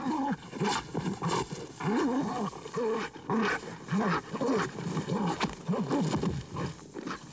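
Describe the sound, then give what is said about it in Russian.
A borzoi hound fighting a wolf, the two rolling on the ground as the hound grips the wolf's throat: harsh, repeated animal cries and snarls that rise and fall, loud and continuous. “Борзая вцепилась в мохнатую глотку волка. Они катаются по земле.”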